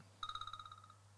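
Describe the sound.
Telephone ringing: a single short burst of rapid, evenly pulsing electronic trill, high-pitched and faint, that fades out in under a second over a low steady hum.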